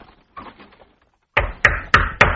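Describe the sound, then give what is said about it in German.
Knocking on the door of a house, made by a soldier of a royal palace guard. Four loud, sharp, evenly spaced knocks come after a few softer, fainter sounds. “Jetzt klopft er an die Tür vom Mardochais Haus.”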